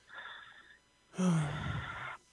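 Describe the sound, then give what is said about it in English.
Heavy, labored breathing from a man who sounds out of breath as if from running or a workout: a soft, breathy inhale followed by a louder, partly voiced exhale, both quiet and without words. “why you breathing so hard, brother? You sound like you was running.”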